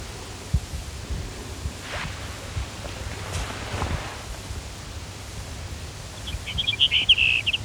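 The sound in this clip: Brewer's sparrow singing: a high, buzzy trill rises out of a quiet, hissy background near the end, with a few faint scattered chirps before it.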